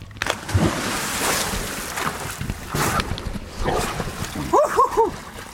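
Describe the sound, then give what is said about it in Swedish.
A person jumps into water after a countdown, making a few splashes and sloshing sounds. Voices talk and shout among them, especially near the end. “vill ni räkna ner till tre så hoppar jag i”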